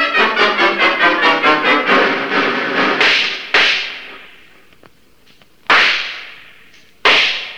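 Gunshots in a tunnel shootout from a radio drama: a rapid run of evenly spaced cracking reports, then three separate loud, sharp shots, each followed by a ringing tail that decays into quiet.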